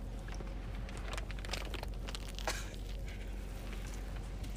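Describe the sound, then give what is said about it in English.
Biting into a crunchy, moist piece of chicken gives a faint, dense crackle of crisp crunching that runs steadily throughout, with no talk over it. “I want to get you guys in on this crunch here, because I think you should enjoy it, too.”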